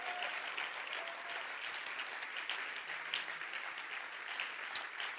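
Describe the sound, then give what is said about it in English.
A church audience clapping hands, a dense, continuous wash of applause that stays steady and fairly loud from start to finish. “Your hand clap be louder tonight. Show that you are in the presence of God.”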